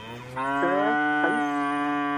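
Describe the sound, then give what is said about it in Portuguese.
A cow moos as it waits for its feed: one long, loud, low bellow with a wavering pitch, heard alone without talk. “Ó, a vaca tá berrando, tá vendo? Já tá querendo... Tá querendo a ração dela.”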